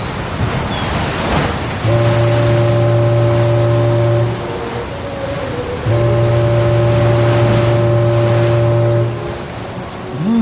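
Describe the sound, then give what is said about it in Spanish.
A ship's horn sounds as the vessel arrives at the port of Buenos Aires: two long, low, steady blasts, the second slightly longer, over a constant wash of ocean waves. “Hace casi un mes que estamos en este barco. Ya hizo escala en Brasil y estamos por arribar al puerto de Buenos Aires.”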